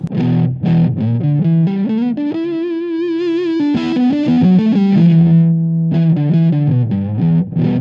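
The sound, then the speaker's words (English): Heavily distorted electric guitar through a Big Muff fuzz pedal with the fuzz control cranked, playing a line of sustained, saturated notes and chords with thick, buzzing harmonics. It is loud and steady throughout, with no talking. “So Big Muffs don't clean up like other fuzz circuits. So that's that sound.”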